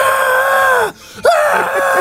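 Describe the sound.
A voice imitates a long, loud, high-pitched scream, as if in pain, held in two sustained yells with a brief break between them. The tone drops at the end of the first yell before the second begins.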